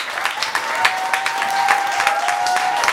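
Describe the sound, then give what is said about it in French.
A studio audience at a television talk show applauds: steady, dense clapping that holds at an even loudness for the whole three seconds, with no voices over it. “Ah, les gens vous ont aimé, hein? Ils applaudissent, c'est très rare.”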